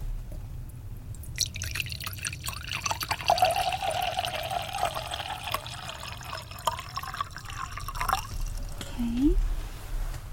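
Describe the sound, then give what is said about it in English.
Water is poured into a cup during a flight attendant meal-service roleplay: a soft, continuous trickle lasting several seconds with a few drips, followed by a brief voice near the end. “Here's water.”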